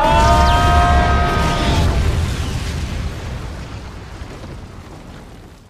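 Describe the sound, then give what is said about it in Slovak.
An American nuclear weapon explodes in a loud, deep, roaring blast with high whistling tones near the start, then a broad rumble that slowly fades over several seconds. “Počkaj, čo to je za zvuk? Americké jadrové zbrane. Veď ale tie mali poslať, nestrieľať.”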